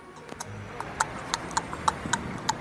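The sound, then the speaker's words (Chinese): Hooves of a horse pulling a carriage clip-clop in a steady, even rhythm of many light, hollow knocks, fairly faint and without voices. “现在我们让故事回到莎拉和爸爸在一起的马车里吧。”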